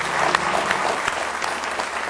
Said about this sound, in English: Let's give him a real good hand clap of praise tonight.